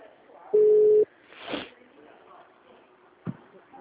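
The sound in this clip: A single steady, low telephone tone sounds once after a call is hung up. It is loud and lasts about half a second, followed by quiet line noise and a couple of faint, brief sounds.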